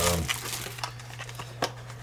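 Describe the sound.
Crinkling of a Panini Chronicles trading card wax pack wrapper being opened, with a few short, sharp rustling bursts over a steady low hum.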